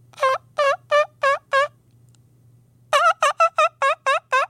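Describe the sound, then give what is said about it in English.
A person's voice imitating a turkey gobble call: five rapid warbling gobble notes, a pause of more than a second, then a quicker burst of seven more, loud and alone. “Can I get the gobble? Yeah, my gobble's just like a little like a terrible, man.”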